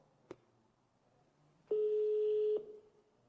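A single steady telephone tone sounds for just under a second while a call is placed. A brief click comes before it over a quiet line hiss.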